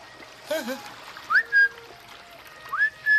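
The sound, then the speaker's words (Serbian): A person whistles in short bursts of clear, bright notes with quick upward slides, set off by brief pauses. A short vocal sound comes just before the first whistle. “Prestani zviždati.”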